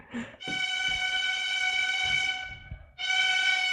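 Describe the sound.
Strange whistles sound as two long, steady, harmonically rich blasts, the first lasting about two seconds and the second starting after a short break. A brief softer tone comes just before them, with no talk over them.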